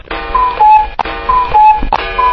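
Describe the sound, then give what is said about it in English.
A cuckoo clock chime set off with its test button: repeated two-note falling cuckoo calls, bright and shrill, with sharp taps between them over a steady mechanical hiss. “We could go to the cuckoo clock. French clock. Grandfather cuckoo. Tap, tap, tap. Test button.”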